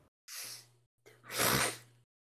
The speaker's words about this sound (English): Sorry for inhaling.